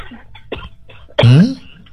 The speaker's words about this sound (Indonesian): batuk minum air dumun